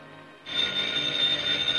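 A telephone rings, its steady, loud bell starting abruptly after a brief quiet moment and sounding continuously through to the end.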